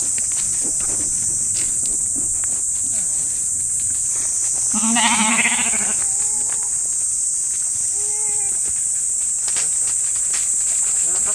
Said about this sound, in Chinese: 现在这是羊吃话筒的声音。